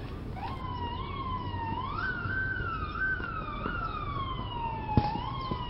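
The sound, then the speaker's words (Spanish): Police car sirens arriving at a house: one steady wailing siren tone that climbs partway through, then slowly falls, sounding continuously over a low rumble, with a brief thump near the end. “al escuchar las sirenas de la policía llegando al lugar”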